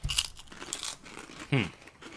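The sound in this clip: Crunching of light, crispy snacks eaten from a bag, with a few short, sharp bites and crackles.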